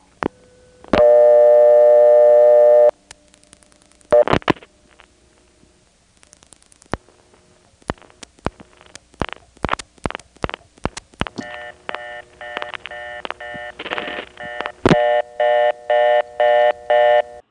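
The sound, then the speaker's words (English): Telephone exchange dialing extra digits through an NX1 register sender: a long steady tone, then sharp clicks and quick bursts of dialed digit tones with a faint step reorder leaking underneath, ending in a loud, evenly pulsed reorder tone. “as the NX1 is dialing out those extra digits, you'll hear the step reorder in the background, because there's a certain amount of leakage through the NX1 register sender. Then when it's finished, you'll hear the reorder come up to full volume.”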